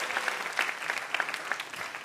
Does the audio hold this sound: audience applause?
yes